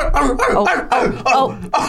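A sleeping dog yips and whimpers while dreaming, giving a run of high, nasal yelps in short connected bursts with brief dips between them, fairly loud and with no talk over it.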